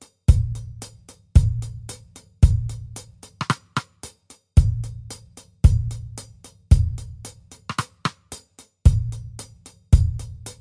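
A sparse, minimal drum beat with no snare drum plays alone: deep kick hits land at a steady, roughly one-second pulse, with a continuous run of crisp hi-hat ticks filling the gaps.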